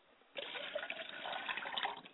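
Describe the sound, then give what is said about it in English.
Water poured onto the ground during a libation ritual. After a short quiet start, a steady, fairly loud splashing stream begins and carries on evenly for nearly two seconds. “And as I wash my face, ladies and gentlemen, I go before the ancestors with a clean face, and I say, Ashe, and I pour water to the ground and say,”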